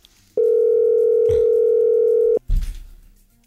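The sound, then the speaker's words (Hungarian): A telephone ringback tone sounds while a call goes unanswered: one long, steady beep of about two seconds, followed by a short muffled thump. “Hívjuk a nap hallgatóját, aki nagyon dolgozik. Nem veszi föl”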